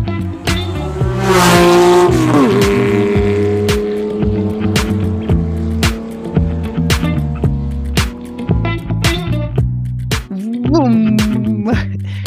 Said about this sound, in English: Yes, that was the 3-litre RSR.